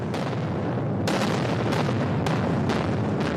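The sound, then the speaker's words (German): Explosives blasting rock from about a hundred charged drill holes: several heavy booms go off in quick succession over a continuous loud roar. “Das sind ungefähr so 100 bis 120 Löcher. Die werden mit Sprengstoff besetzt und dann gesprengt, im Fachjargon geschossen.”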